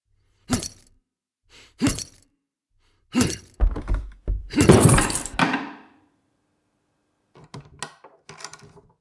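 Box being smashed open in a video game: a few heavy, separate thunks, then a longer, louder splintering crash, followed after a pause by lighter rattling clatter.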